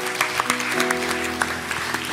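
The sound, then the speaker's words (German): Applause at a company team gathering welcoming colleagues, with moderate, scattered clapping over steady sustained tones underneath. “Applaus.”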